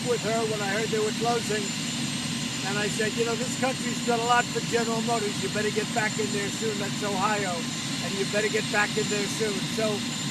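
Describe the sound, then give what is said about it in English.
A helicopter at a political campaign event gives a steady, droning engine roar that runs unbroken beneath a man speaking throughout. “Well, listen to that roar of the helicopter.”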